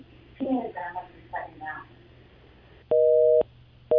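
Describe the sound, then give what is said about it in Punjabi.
Telephone busy tone after a call line dropped: a brief stretch of voices, then steady mid-pitched tone bursts, the second cut short at the end. “ਮੇਰੇ ਖਿਆਲ line drop ਹੋ ਗਈ”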